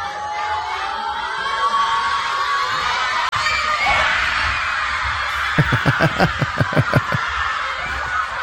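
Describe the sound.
Schoolchildren cheer at the kickoff of a football match shown at a school viewing. A dense, lively din of young voices carries through, then gives way to a run of many evenly spaced rhythmic bursts in the second half.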